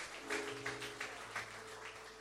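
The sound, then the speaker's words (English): Church audience clapping a clap offering, faint rhythmic claps on an even beat over sustained, quiet musical tones. “Give Jesus a clap offering. Give the Father praise.”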